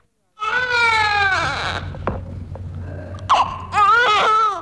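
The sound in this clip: A young boy cries in loud, wavering wails. A stretch of wailing breaks off into catching breaths and small sobs, then the wailing rises again at the end.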